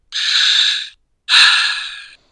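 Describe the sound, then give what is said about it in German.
A deep sigh played from a mini soundboard: two long, breathy rushes of air separated by a short gap, both loud and airy, with the second starting on a brief low catch. “Einmal tief seufzen, das muss auch mal sein.”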